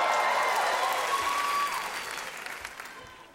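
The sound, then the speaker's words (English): Audience at a comedy set bursts into loud applause and cheering in response to a call about loving oxtails, strongest at the start, then thinning and fading over the last couple of seconds. “Where's all the people that love oxtails? Make some noise if you love oxtails.”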